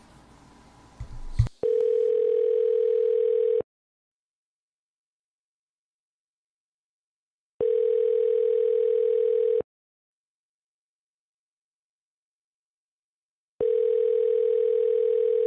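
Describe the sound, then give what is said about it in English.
Ringback tone on a phone call to a laundromat: three steady, even tones of about two seconds each, separated by long silences, after a brief burst of noise at the start. “Okay. It's dialing.”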